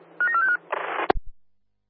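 Telephone keypad dialing tones: a few short, steady beeps, then a brief hiss and a sharp click before silence.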